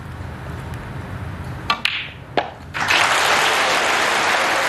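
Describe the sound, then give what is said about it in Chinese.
Audience at a snooker match applauding and cheering for player Wu Yize as he nears a century break. A low murmur and a few sharp clicks come first, then a loud, sustained burst of clapping and cheers runs to the end. “现场又响起了专属于吴一泽的加油的声音。”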